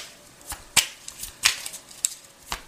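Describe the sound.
Tarot cards being shuffled and drawn: several crisp, sharp snaps and flicks of card stock at irregular intervals over a faint background hiss.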